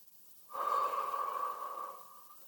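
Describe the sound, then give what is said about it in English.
A single slow, steady breath during a guided relaxation breathing exercise, soft and smooth, lasting about a second and a half and then fading, with no talk. “breathe in, breathe out, breathe in, breathe out.”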